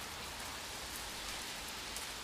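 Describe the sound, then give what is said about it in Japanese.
Sudden rain falls in a dense, steady hiss of drops, even in loudness throughout, with no voices. “嘘でしょ？こんな急に雨が降ってくるなんて。”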